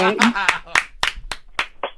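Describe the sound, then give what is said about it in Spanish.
Hand clapping for a caller on a call-in show begins right after a brief voice. A handful of sharp, separate claps fall at a fairly steady pace. “Maestro, maestro, déjele, doy sus palmadas.”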